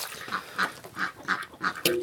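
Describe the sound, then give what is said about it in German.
A drake quacks noisily in a farmyard with hens, giving a run of harsh, nasal quacks at a fairly regular pace, each call short and distinct. “das ist der Erpel, der hier so einen Rabatz macht.”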